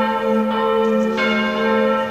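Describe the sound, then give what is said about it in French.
Church bells ring out from the eighteenth-century Baroque Benedictine monastery at Einsiedeln in the canton of Schwyz, Switzerland. A few resonant strikes sound, each leaving a long, humming tail that overlaps the next, with no talking. “C'est bon avec les cloches, merci.”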